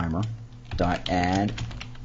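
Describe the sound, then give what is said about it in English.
Typing code on a computer keyboard, heard as scattered light clicks under a voice. “So now we're going to type”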